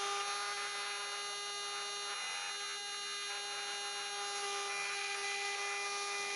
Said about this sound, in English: And this shows the tool they made making a circuit board.